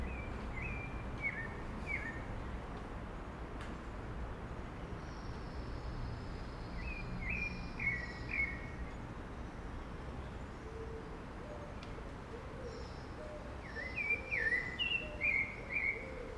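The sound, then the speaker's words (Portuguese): A pale-breasted thrush (sabiá-barranco) sings short, bright whistled phrases in three separate bursts, faint over a quiet, steady outdoor background. “É mais um sabiá barranco. E eles estão em todas.”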